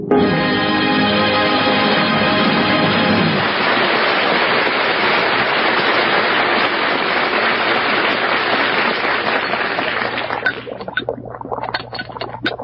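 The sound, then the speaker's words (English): Liquid coming to a boil gives a loud, steady hissing and roiling wash of bubbles that breaks into separate pops near the end. Held musical tones sound under it at the start. “Shh, shh, don't disturb me. I gotta concentrate. It's coming to a boil.”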